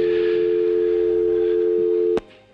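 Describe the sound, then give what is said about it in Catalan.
Telephone tone as a government minister's call to a regional president is placed in a 1937 telephone exchange scene: a steady, buzzy hum held for about two seconds, ended by a sharp click. “Es produeix quan un ministre de la República Espanyola intenta trucar al president de la Generalitat, Lluís Companys.”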